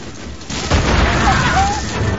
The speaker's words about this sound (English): Aubrey throws a grenade into the hold of the Acheron.